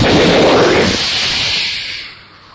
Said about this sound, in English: A lightning bolt struck the house. The volume of the thunderous roar of this lightning caused the entire house to shake, and all the electricity went off.